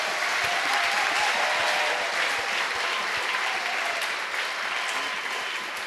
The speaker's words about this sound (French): Est-ce qu'on peut acclamer le Seigneur? Can we clap for the Lord?